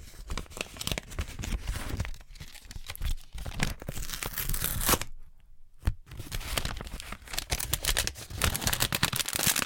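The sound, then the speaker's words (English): An envelope lined with plastic is torn open, with dense crackling and crinkling that runs continuously, breaks off briefly partway through, then resumes. “Okay, I have like another envelope with plastic.”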